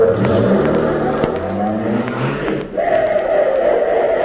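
A car engine rumbles and revs loudly as the vehicle drives off. Its pitch shifts throughout, with a brief dip in level partway through before it continues strongly.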